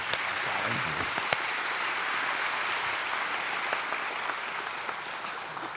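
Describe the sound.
Sustained applause from a church audience welcoming a guest speaker, a broad, even roar of clapping hands that holds steady at full volume from start to finish.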